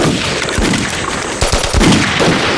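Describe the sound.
Machine gun fire rattles through a battle scene as troops prepare to retreat: a dense, loud, continuous clatter of shots, growing heavier with sharper bursts in its second half, with no voices.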